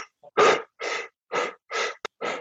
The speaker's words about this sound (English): And this is inhaling deeply and doing it fast, and then just releasing the breath.